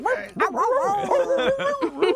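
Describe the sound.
A person imitates a dog barking, with a rapid run of yips, bow-wows and whiny, dog-like yelps rising and falling in pitch.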